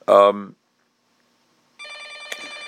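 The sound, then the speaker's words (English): An electronic telephone ringtone in the background, a bright, buzzy, steady tone that begins after a brief spoken phrase and a pause, then carries on to the end with one sharp click partway through. “Sorry for the phone ringing in the background.”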